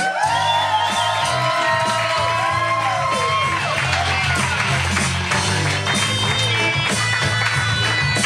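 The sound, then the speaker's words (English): Audience members whoop and cheer at a comedy show at the UCB Franklin Theater, with high-pitched rising and falling whoops over a loud, continuous crowd roar. “Okay, a few people wooed, a few very high people just went like that.”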